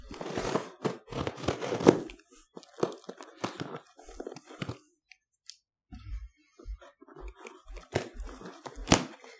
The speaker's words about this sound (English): All right, back to unwrapping.